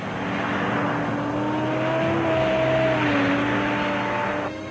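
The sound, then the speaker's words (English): Steady, heavy engine drone from Pershing missile carrier vehicles driving over rough roads, loud and continuous throughout, with low humming engine tones that shift slightly in pitch. “The Pershing can be moved over rough roads,”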